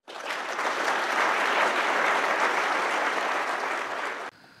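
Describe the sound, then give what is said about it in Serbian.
Lukewarm applause from an audience: a dense, even patter of clapping that holds steady for about four seconds, then cuts off abruptly. “Čak je i tamo bio kilav aplauz.”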